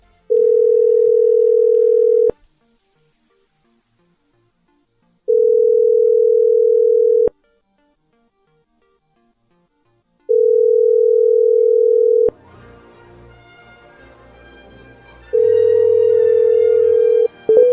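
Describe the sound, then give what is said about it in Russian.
Four steady, mid-pitched ring tones sound on a telephone line while a call is placed again. Each lasts about two seconds, with roughly three-second silent gaps, and faint background sound enters under the last tones. “Еще раз набираю.”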